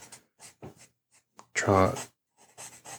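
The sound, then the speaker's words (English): Drawing a picture of the doctor on paper: short, scratchy strokes in uneven bursts, quiet, with a brief voice in the middle. “draw my own picture of the doctor.”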